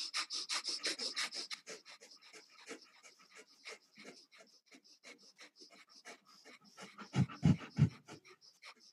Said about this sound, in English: you close your eyes and you do a breath of fire. And a breath of fire is with your tongue touching the top of your palate and blowing in and out of your nose.